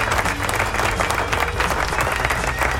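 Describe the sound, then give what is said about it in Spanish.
A crowd applauds with dense, steady clapping that stays at an even, fairly loud level for about three seconds without a clear break. “aplauso”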